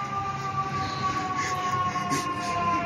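A weak, feeble siren sounds as a thin, steady wailing tone that droops slightly in pitch over a constant low background rumble.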